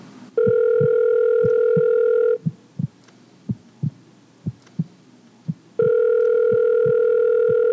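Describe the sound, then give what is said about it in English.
A telephone rings on an incoming prepaid call from a California state prison: two long, steady electronic rings separated by a pause filled with soft, regular heartbeat-like thumps that continue beneath the ringing. “The volume increased with every ring of the telephone.”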